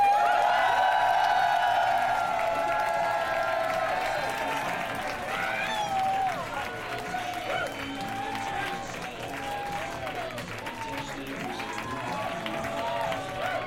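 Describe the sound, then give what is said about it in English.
Sustained applause from a comedy-club audience welcoming a performer to the stage: dense, steady clapping mixed with crowd noise, easing slightly partway through and continuing for the whole stretch. “Please give a warm welcome to Vicky with a V!”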